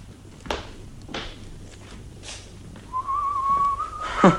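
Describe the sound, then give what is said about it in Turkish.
Soft whistling by a person: a thin, steady whistled tone enters partway through and holds near one pitch, faint and alone over quiet background rustling. “Şöyle hafiften ıslık çalıp duruyorsunuz da.”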